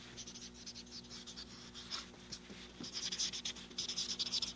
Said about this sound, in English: It's great to be able to write and leave notes like this, isn't it?